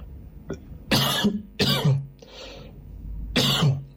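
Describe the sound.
A person coughs from something caught in the throat. Three harsh, loud coughs are spaced about a second apart, with a smaller cough before them and a breathy rasp between, and no talk.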